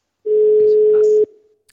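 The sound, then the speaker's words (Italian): A single telephone ringing tone on an outgoing call: one steady mid-pitched beep lasting about a second, then cutting off abruptly, heard alone without talk. “È strano però, perché adesso squilla, quindi avrà trovato la presa di corrente, avrà rimesso in carica il telefono”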